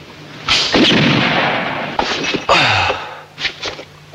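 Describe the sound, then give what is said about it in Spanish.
Gunshots from the seventh bullet fired in a gunfight as another shooter runs out of ammunition: a few sharp, loud cracks with ringing tails, then fainter, softer thuds near the end. “Y la séptima bala correrá a cuenta del Ivan Cliff, ya que Bill se queda sin munición.”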